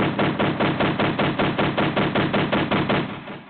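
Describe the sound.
Gunfire sound effect: a rapid, loud volley of many evenly spaced shots fired in a steady machine-gun rhythm, with no talking.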